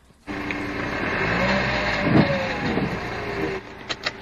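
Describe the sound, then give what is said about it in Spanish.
Car engine with a failing turbo gives a loud, steady mechanical drone with a whining tone on top. It cuts off abruptly near the end and is followed by a few short knocks. “Ahora sí que sí, esto no suena bien, ¿eh? Pues por el sonido me da a mí que eso va a ser el turbo, ¿eh?”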